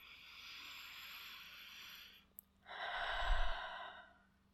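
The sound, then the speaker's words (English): A deep breath taken alone: a long, steady, airy inhale, a tiny click, then a louder, fuller breathy exhale that tapers off. “So take a deep breath for me”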